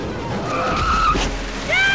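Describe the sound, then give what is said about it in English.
A taxi brakes hard in heavy city traffic and its tyres skid with two high, wavering screeches, the second rising in pitch. Rumbling engine and road noise sit underneath. “until a braking taxi causes him to lose his footing and come crashing to the ground.”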